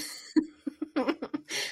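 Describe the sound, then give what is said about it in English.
A woman coughs in a quick string of short, dry bursts that end in one longer, breathy cough. She makes no other vocal sounds. “She's currently coughing.”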